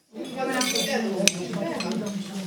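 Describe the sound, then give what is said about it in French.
Plates and cutlery clink as diners take their plates at a shared vegetable meal, scattered clatter with one sharp clink in the middle, under a murmur of voices. “Eh bien, écoutez, bon appétit. Chacun prend son assiette.”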